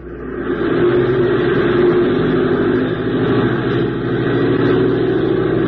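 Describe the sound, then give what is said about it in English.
Aircraft taxiing up and down over snow in the Arctic, its engine giving a loud, steady, continuous rumbling drone with no talk. “We'll taxi up and down a couple of times”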